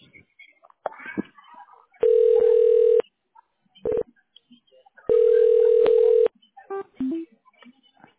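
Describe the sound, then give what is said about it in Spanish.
Telephone ringback tones on a call being connected: two long, steady, mid-pitched tones about three seconds apart, with a short tone blip between them and brief voices before and after. “Permítame en línea, por favor. Voy a enlazar la llamada, ¿ok?”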